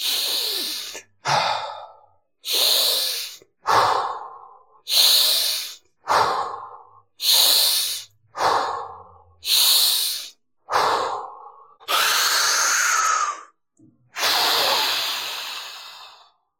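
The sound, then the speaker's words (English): Rapid, forceful hyperventilation breathing before a breath hold, done in a breathwork style: about a dozen loud, airy breaths in quick, even succession, ending with two longer, drawn-out breaths. “But if you hyperventilate first, your ability to hold your breath increases, okay? So watch this. I'm going to do it Wim Hof style.”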